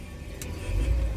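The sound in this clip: A car pulls away during a driving lesson as the learner starts off in first gear. A low engine rumble holds steady, then swells louder in the last half second.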